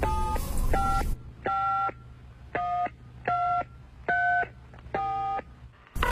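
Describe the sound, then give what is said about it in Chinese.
Telephone keypad tones as someone dials a call home: seven short, steady electronic beeps of varying pitch, the first two partly masked by a burst of noise, followed by five clean, evenly spaced tones. “你给东东的妈妈打个电话，看她能不能早点回来呀。”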